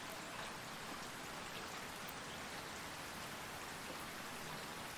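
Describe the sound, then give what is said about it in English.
Raindrops falling on leaves and a roof, a soft, steady hiss of rain with an even patter throughout and no breaks or voices. “Listen closely to the droplets. Can you hear how they fall down on the leaves? How they fall down on the roof.”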